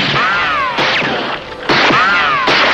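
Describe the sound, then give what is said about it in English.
Revolver shots ring out in a staged western gunfight inside a dark store: a few sharp, loud cracks spaced roughly a second apart, with whining, arcing ricochet-like tones sweeping between them. “A fraction of a second after a bullet from Fletcher Cobb's .45 grazed his cheek, the Lone Ranger's guns were spitting flame and lead.”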